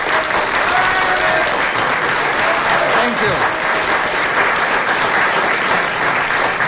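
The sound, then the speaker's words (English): Warm audience applause greeting the chairman at the start of the panel game Just a Minute, loud and continuous clapping that holds steady throughout. “Thank you very much for that very warm reception and welcome to Just a Minute.”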